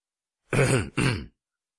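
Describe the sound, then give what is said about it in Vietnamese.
A man clears his throat in embarrassment, making two short, gruff, voiced bursts in quick succession, loud and alone in an otherwise silent clip. “Ông Jira hắng giọng, bối rối, vì bị bắt quả tang làm một ít điều thiện”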